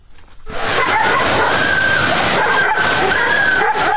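Many dogs bark and yip at a flooded dog shelter in the Vere river valley in Tbilisi after heavy rain, forming a loud, dense, continuous chorus with some whimpering mixed in.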